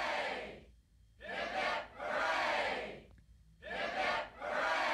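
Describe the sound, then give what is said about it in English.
A crowd shouts three cheers for Captain Cook in loud unison bursts. Short calls are followed by a longer drawn-out cheer, with brief gaps of near silence between the group shouts. “Three cheers for Captain Cook. Hip hip hooray! Hip hip”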